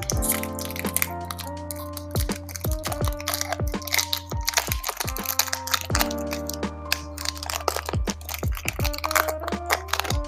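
Opening a Hidden Summoners trading card pack: many sharp crackles and crunches of the wrapper being torn and handled, dense and continuous, over a low steady hum.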